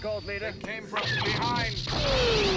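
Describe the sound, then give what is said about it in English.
Explosion in a film scene, with a pod breaking off the side, heard as a broad roar that builds under voices, joined near the end by a falling whine. “Oh, that was always my favorite explosion with the one pod coming off the side.”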